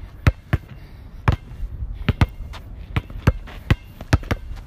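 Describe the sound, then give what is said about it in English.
A basketball is dribbled through the legs and in crossovers: many sharp, hollow thumps in an uneven rhythm, some coming in quick pairs, heard alone against a quiet background. “Now let's practice dribbling through the legs and crossovers. This will help with your handles and give you better control on the ball.”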